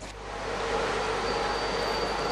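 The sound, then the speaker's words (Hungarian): A pilgrim train pulling into the railway station at Csíkszereda, a broad, steady rumble that swells over the first half-second and then holds loud and even. “A zarándokvonatok hatalmas ováció mellett futottak be a csíkszeredai pályaudvarra.”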